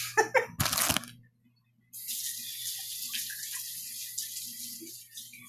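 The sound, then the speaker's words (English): Hands are washed under a running tap. A few quick knocks come first, then a short silence, then a steady stream of water runs on to the end. “Yeah, I'll wash my hands.”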